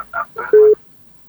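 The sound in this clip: A short, steady telephone tone sounds on an ordinary landline call, a single clear beep that follows a brief burst of voice.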